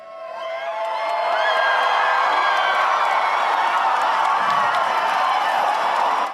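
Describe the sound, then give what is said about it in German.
Hundreds of viewers at a Eurovision viewing party in a hall in Hurstville, Sydney, cheer and applaud as the Australian entry finishes, swelling quickly into a loud, sustained roar of voices and clapping. “Als die australische Teilnehmerin Delta Goodrem in Wien ihren Auftritt im Finale mit ihrer Popballade Eclipse beendete, gab es Jubel und Beifall.”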